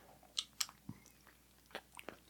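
Crunchy biting and chewing on a Blow Pop lollipop, a hard candy shell with gum inside: a few quiet, sharp crunches spaced irregularly, with no talk.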